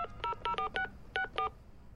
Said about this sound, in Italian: Bisogna telefonare subito alla polizia!